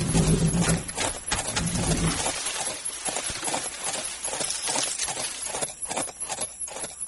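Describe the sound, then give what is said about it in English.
A horse with a rider gallops past at speed, a quick, uneven drumming of many hoofbeats that keeps going after a short noisy opening, with no voices. “That was Banker Weed riding by here like a San Saba cyclone was twisting his tail.”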